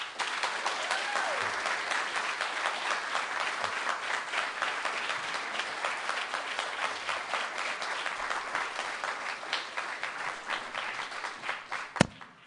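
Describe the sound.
Audience applause welcoming a singer to the stage at a concert, a sustained, even wash of clapping that tapers off toward the end.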